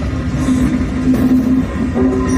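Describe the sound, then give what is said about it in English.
An Amtrak Aero passenger train set gives off a steady low rumble with a sustained humming tone. It is loud, continuous and unbroken throughout. “Well, they look like a train and sound like a train,”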